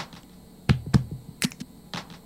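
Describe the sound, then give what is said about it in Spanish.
Finger snaps used as the snare part of a spoken drum beat: a few sharp, dry clicks spaced unevenly, each paired with a soft low thump, over quiet background hum. “Y también hay un tambor, como dijo hace un rato Cecilio, que lo vamos a hacer con un chasquido de dedo. Chasquido ahí.”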